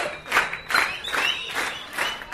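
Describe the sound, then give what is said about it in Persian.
Audience clapping loudly on cue in a steady rhythmic beat, a few broad synchronized bursts spaced evenly, with no voices over them. “مرسی، تشویق بلند، محکمتر، محکمتر، حالا ریتمیک، ریتمیک.”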